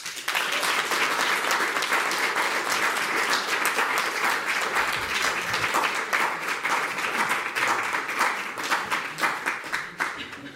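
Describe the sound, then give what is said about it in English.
Live studio audience applauding as guests are introduced: dense, sustained clapping from many hands that holds at an even, fairly loud level for about ten seconds before easing off at the end. “we have a live audience that you can probably hear. Just about. And I hope that you will show your appreciation”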